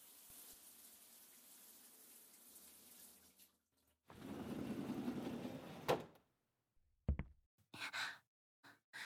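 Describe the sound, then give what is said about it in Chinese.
Shower water runs in a quiet bathroom, a faint hiss giving way to a steady rush of spray for about two seconds before it stops, followed by a few short clunks. “我去洗澡了。”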